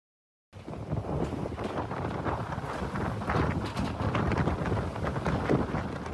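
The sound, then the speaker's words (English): Strong wind roars through flooded streets during a storm, filmed from a concrete hotel: a loud, continuous rushing with constant buffeting on the microphone and no voices. “Streets are flooded, wind is blowing, but he was secure.”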